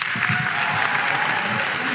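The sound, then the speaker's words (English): Audience applause welcomes two guest speakers to a school chapel service. The clapping is dense and even, with no voices standing out. “So we're blessed to have both Christina and Loren with us today, bringing a word from the Lord. Can you give them with me a warm Raider welcome?”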